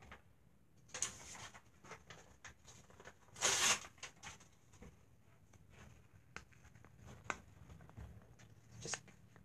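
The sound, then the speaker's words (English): Paper torn by hand as a divider inside a container, heard as one short, sharp ripping burst among faint scattered ticks and rustles. “I'm gonna be separating them by using some papper. We just rip out some papper right now.”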